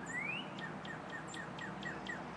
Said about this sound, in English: And that's my cardinal that is saying good morning. I see him up there in the trees. He does that every morning.